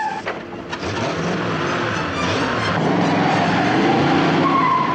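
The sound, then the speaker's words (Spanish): A car arriving on a snowy road, braking and reversing, with a loud, steady engine roar and skidding, squealing tires throughout. “Llega el coche de Cruella. Frena y da marcha atrás.”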